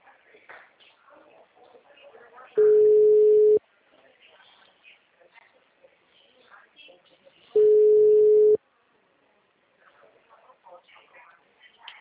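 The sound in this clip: Telephone ringback tone while a call is placed: two long, steady, mid-pitched beeps of about a second each, spaced well apart, with faint background sounds between them.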